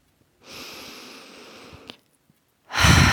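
A slow, deep inhale through the nose during a guided relaxation breathing exercise, a soft airy hiss lasting about one and a half seconds, followed after a brief pause by the start of a much louder, breathy exhale.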